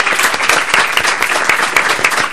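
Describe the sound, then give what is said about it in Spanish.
A crowd at a live radio show recording bursts into loud applause, a dense mass of hand claps with many crisp, sharp individual claps cracking through the steady clatter. “Así que un aplauso para Radio Futura, la mejor radio del mundo.”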